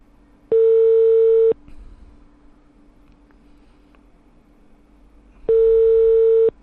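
A telephone ringback tone plays as a call is placed: two steady one-second tones several seconds apart, with a faint low hum and noise in between.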